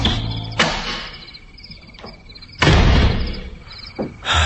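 A house door is opened after a ring at the doorbell, heard as a few dull thumps and one louder rushing burst over a steady chirping background.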